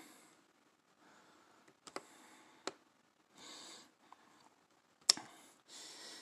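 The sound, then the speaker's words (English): A few sharp, faint computer mouse clicks on a web page, widely spaced in near silence, with soft breathy noise bursts between them. “Okay, maybe I have to click on that.”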